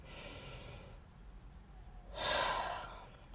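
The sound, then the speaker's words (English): A person takes a deep breath while pausing mid-talk: a soft, airy breath at the start, then after a short quiet gap a louder, fuller rush of breath lasting under a second. “Hold on, I'm going to take a breath here.”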